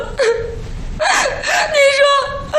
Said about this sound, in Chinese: 别哭了。